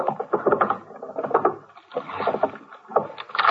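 A desk drawer full of Christmas candies is opened, giving a few loud bursts of sliding and rattling with short pauses between them and no talk over it.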